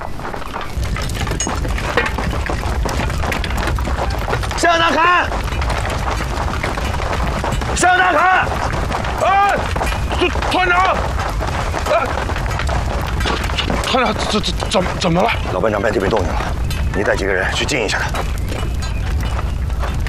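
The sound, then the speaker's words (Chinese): Explosions at an ammunition depot under artillery fire: a dense, continuous din of booms, shattering and breaking debris, with voices talking and shouting over the chaos. “我们被炸了， 共军炮击了军火库”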